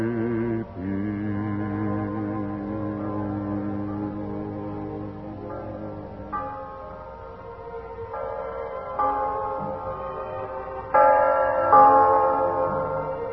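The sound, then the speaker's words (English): Church bells ring out for Christmas 1945 in a steady, layered peal of overlapping tones. The bells restrike several times without pause, keeping a fairly even loudness throughout. “hear that? The bells of Christmas 1945 ring out clear and free around the world to you. Listen to them.”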